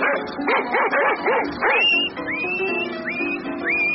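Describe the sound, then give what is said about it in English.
A dog gives a rapid string of sharp, high yips, then shifts into several rising, whining cries that sweep upward in pitch, heard alone without talk. “Where's that Rover now? Get out of here. You can't come around here on Mormon lawn. Get out of here. Rover, get out of here.”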